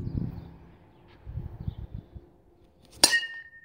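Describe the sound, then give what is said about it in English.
A metal bat strikes a wiffle ball with a single sharp, bright clink and a short ringing decay. Faint low thuds and rustles come before the hit, and no voices are heard. “That was the sound of my dad hitting a wiffle ball with a metal bat.”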